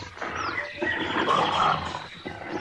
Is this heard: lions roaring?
yes

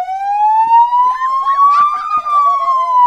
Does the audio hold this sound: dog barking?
no

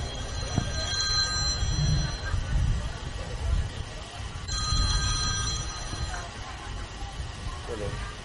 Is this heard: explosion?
no

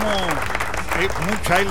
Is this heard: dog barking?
no

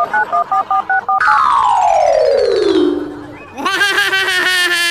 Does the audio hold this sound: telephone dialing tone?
yes

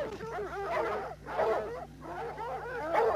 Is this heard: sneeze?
no

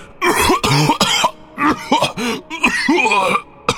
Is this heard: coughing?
yes

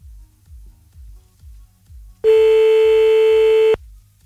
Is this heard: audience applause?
no

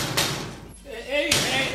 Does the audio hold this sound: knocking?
yes

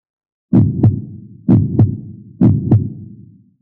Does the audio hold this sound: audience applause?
no

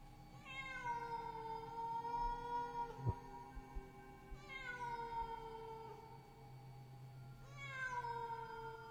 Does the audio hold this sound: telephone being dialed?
no

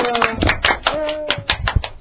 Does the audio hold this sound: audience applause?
yes

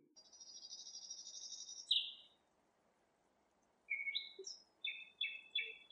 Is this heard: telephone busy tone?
no

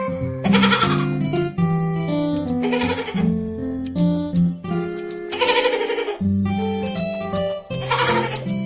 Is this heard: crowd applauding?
no

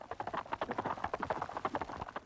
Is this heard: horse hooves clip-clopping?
yes

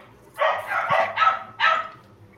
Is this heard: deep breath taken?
no

